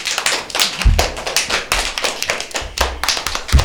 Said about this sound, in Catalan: Doncs sí, sí, ja podeu aplaudir, aplaudiu, aplaudiu.